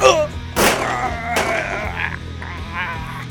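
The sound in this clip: A couple of sharp, loud bangs, apparently a gunshot fired at someone, burst out over a steady low tonal backdrop, then the sound settles back to the quieter hum.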